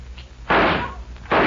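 Gunshots fired at tin cans for target practice on a ranch: two sharp, loud blasts, each followed by a short ringing decay.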